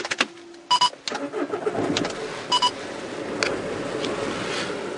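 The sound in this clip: A car engine starts and settles into a steady running rumble as the driver sets off from Pontefract, West Yorkshire, one October morning in 2008. A couple of short electronic beeps and clicks come just before.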